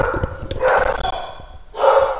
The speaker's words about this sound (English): Sorry about my dog. If you can hear it. Dog. Here, like I'll make it so you can hear my dog.